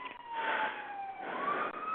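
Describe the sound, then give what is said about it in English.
An ambulance siren wails past in a steady, continuous tone that dips slightly in pitch and then climbs again, sounding muffled and thin, with no talking. “is there an ambulance? yeah, one just went by my place, sorry about that.”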